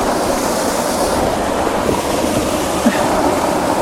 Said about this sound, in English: The waterfall is totally obscured by this tree, so I'm going to move my position over here.